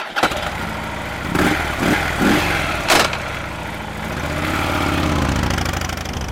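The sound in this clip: A motorcycle sets off and rides along a road through marshland: a few short engine revs, then a steady, building engine drone.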